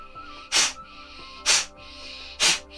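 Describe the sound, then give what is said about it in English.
Three sharp, forceful exhalations during a breathing exercise, each a short burst of hissing breath pushed out through the nose, evenly spaced about a second apart with quiet pauses between. “Now really exhale. Sharp, sharp, sharp, sharp. This is for your digestive system as well.”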